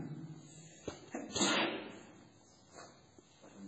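A single sneeze during a religious lesson, heard as one sharp, loud burst that rises above a low, steady background, with a few faint knocks shortly before it.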